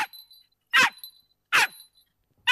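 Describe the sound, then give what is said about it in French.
Hoarse, raspy dog barks resembling a dachshund: three loud, evenly spaced barks separated by silence, with a clipped bark at the very start. “Alors, ça ressemble à un teckel enroué.”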